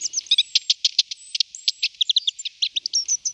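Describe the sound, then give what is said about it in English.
A long-tailed tit, also called a bum barrel, calls in many rapid, thin, high-pitched chirps and short trills in quick, uneven bursts, with no other sound. “The bum barrel isn't really a member of the tit family at all. It's a closer relative to the babblers of India and South Asia, which also sport an excessively long tail.”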